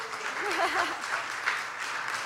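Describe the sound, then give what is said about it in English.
Audience applause at a school chapel gathering as young children come up to the risers, a fairly soft, steady clatter of hands with a voice briefly calling out over it near the start. “Yeah, you can clap for them too.”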